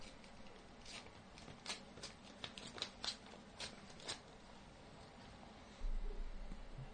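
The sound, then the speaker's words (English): A priority mail envelope is torn open in short bursts of quiet, crisp paper ripping and rustling. “I got an envelope here. It says it's priority. So let me...”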